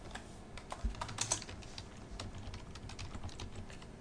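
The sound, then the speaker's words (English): Quiet typing on a computer keyboard: many light, quick keystroke clicks in an uneven rhythm, with a few slightly louder taps early on and no voices. “Actually, let's check to see if it's on Vita. The show's officially over, so I can type without feeling bad.”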